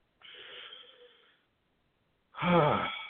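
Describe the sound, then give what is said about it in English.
Breathing together during a rehab group session: a soft drawn-in breath, a pause, then a louder, sighing exhale. “You come to rehab to just breathe. So let's all do it together.”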